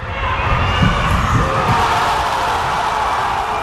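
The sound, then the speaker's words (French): Spectators roar in the stands at a futsal match between Paraguay and a joint United States–Canada team at the Racing stadium in Buenos Aires, a dense, continuous wall of crowd noise with no clear breaks. “Le public est déchaîné sur les gradins.”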